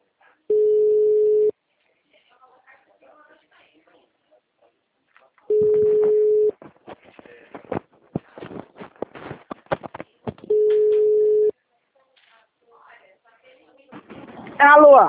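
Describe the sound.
Ringback tone of an outgoing telephone call: three steady, low electronic tone bursts of about a second each, evenly spaced by longer pauses filled with faint clicks and line noise, before a voice starts at the very end.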